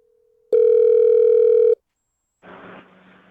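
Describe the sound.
A telephone dial tone sounds loud and steady for just over a second before cutting off abruptly; after a short silence, a brief rustling noise follows.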